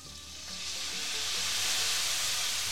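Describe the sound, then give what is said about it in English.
Loud, steady sizzling as wine is added to a hot frying pan with shrimp, building quickly at the start and holding as a dense, continuous hiss, with no talking. “We're going to coat it with the wine.”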